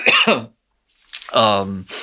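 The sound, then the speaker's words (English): A person coughs and clears the throat: a short rough burst, a brief silence, then another harsh burst trailing into a voiced sound. “Sorry, I have to cough. I apologize.”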